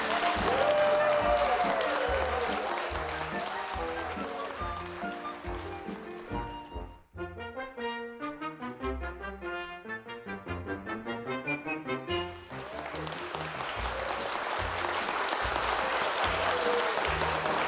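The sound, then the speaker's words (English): A live audience applauds at a radio show recording in Terrapin Restaurant, Rhinebeck, New York. Dense clapping gives way to a short musical interlude in the middle, then the applause swells back up to the end. “You're the audience, and we love you. And give yourselves a round of applause one more time here.”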